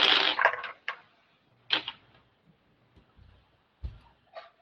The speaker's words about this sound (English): Dice, don't fail me now. Come on, dice.